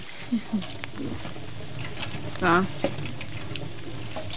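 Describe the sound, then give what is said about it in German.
Running tap water splashes as hands are washed in a kitchen after cracking eggs for an omelette: a soft, steady stream with a few light knocks and clatters. “auch mal kurz die Hände waschen. Das ist eine sehr gute Idee, das mache ich direkt.”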